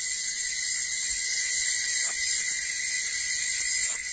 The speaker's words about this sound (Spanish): En el transcurso de la noche, la música de los insectos que se aparean perturba el aire de la selva.